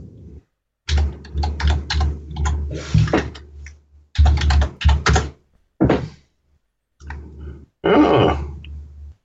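Computer keyboard keys clacking as a web address is typed, several quick bursts of keystrokes separated by short pauses.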